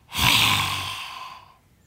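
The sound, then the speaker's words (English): A forceful lion's-breath exhalation during yoga, made with the tongue stretched toward the chin: one long, breathy, open-mouthed exhale that surges quickly and then fades away over more than a second, with no talking. “And that breath is also, lion's breath is also really good for bad breath.”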